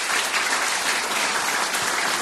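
An audience applauds to welcome a drummer back onto the stage, producing a thick, continuous patter of clapping that stays loud and steady throughout.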